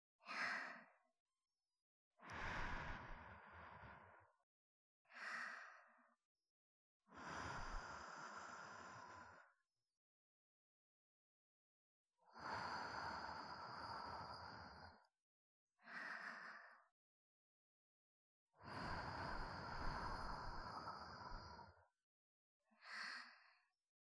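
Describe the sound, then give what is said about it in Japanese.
Soft, airy breaths gently blown into the ear for ASMR: eight separate whooshing puffs, each lasting one to three seconds, with hushed silence between them. “ほな、軽くお耳ふうふうしますね。”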